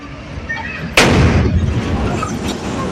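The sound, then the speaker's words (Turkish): A natural gas explosion bursts from the window of a burning building: one sudden loud boom, then a sustained rolling rumble over steady background noise. “Doğalgaz kaynaklı olduğu öne sürülen patlamanın sesi yüzlerce metre öteden duyuldu.”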